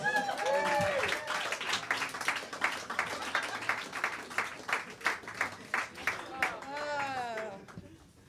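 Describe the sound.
An audience claps and applauds to welcome the host back to the stage, a steady rattle of many hands that fades near the end. A voice speaks over the opening and again toward the close.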